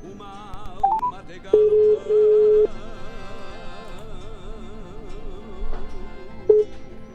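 A telephone line being dialled to connect a caller: a few electronic tones, including a steady held tone lasting about a second, sound over soft sustained background tones, followed later by a short beep.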